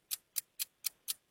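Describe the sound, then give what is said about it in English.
Game show countdown clock ticking: six sharp, bright ticks at an even, quick pace, fairly faint and with no talk. “All right, start the clock.”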